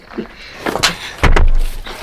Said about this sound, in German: Wisst ihr was? Wir schlagen ihnen jetzt die Tür zu.